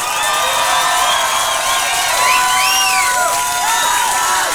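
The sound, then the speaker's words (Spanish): An audience cheers loudly, with whoops and shouts that swoop up and down over a continuous roar that holds steady throughout. “Aplauso para los Daniels.”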